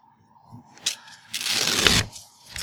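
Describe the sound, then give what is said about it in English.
Paper tearing as a hope card from a Ten Candles game is ripped up: one loud, rasping rip of about half a second, preceded by a few faint rustles and small crinkles. “So please rip up that hope card.”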